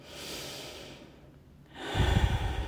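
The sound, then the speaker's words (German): Slow, deep breathing in and out during a guided breathing exercise: a long soft inhale, a short quiet pause, then a louder rushing exhale with a low rumble. “Ein und aus. Spür den Atem, wie er deinen ganzen Brustkorb weitet und wieder senkt.”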